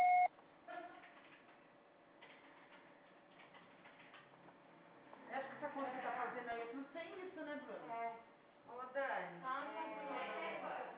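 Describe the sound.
A voicemail beep after the answering message sounds as a short tone at the start, followed by a long, faint steady tone, and then a voice starts speaking.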